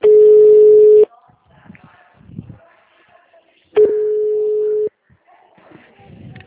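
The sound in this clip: Telephone tones play while a call is transferred: two long, steady, single-pitched beeps, each lasting about a second, separated by a stretch of faint line noise.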